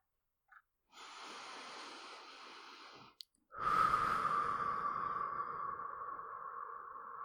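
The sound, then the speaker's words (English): A deep breath taken in a calming exercise: a faint, long airy inhale, a brief pause with a small click, then a longer, stronger, breathy exhale, all quiet with no talking. “Let us both take a deep breath and count down.”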